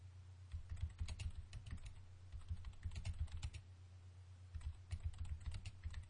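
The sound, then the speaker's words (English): Quiet typing on a computer keyboard while a message is posted to an online chat forum: rapid, irregular bursts of key clicks with short pauses over a low steady hum. “I'm going to type something to the people in the chat forum.”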